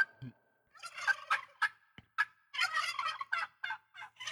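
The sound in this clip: A person imitates a turkey gobble: many rapid, warbling, throaty bursts, some short and some drawn out, delivered loudly with brief pauses between them and no other voices.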